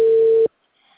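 A single steady telephone tone on an unanswered call holds at one pitch for about half a second, then cuts off abruptly into near silence.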